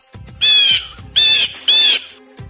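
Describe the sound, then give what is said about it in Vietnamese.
Three loud, harsh squawks from an unhappy small bird, evenly spaced, each a shrill, grating call with brief gaps between. “thẳng đến khi chim nhỏ nào đó vô cùng không vui mà kêu một tiếng.”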